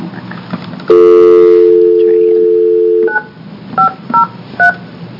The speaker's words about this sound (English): I think you may have to dial a one.